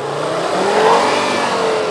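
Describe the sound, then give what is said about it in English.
A sedan's engine revs hard as the car spins its tires and rocks back and forth, trying to get unstuck on a side street. The loud, steady whine is heard alone without voices. “After a few minutes of spinning tires and rocking the car back and forth, he made it out.”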